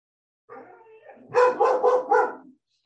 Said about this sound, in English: Excuse the dogs.